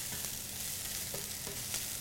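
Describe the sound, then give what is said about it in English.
Swiss chard stalks sautéing in a salted pan make a loud, continuous crackling sizzle that holds steady for the whole stretch, with no talk over it. “So I've added the stalks of the Swiss chard to the pan, and I'm just gonna let them saute for about a minute.”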